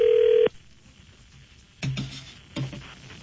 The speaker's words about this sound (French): Oui, il est déjà en train de composer.